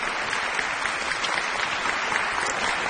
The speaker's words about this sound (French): Alors, ces applaudissements, je m'interromps.